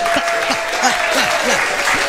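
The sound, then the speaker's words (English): Hands clap together on a lively Friday morning show, set against a steady beat of low, rhythmic thumps. A faint sustained tone hangs underneath. “I still have hands to clap. So clap the hands with me. Clap.”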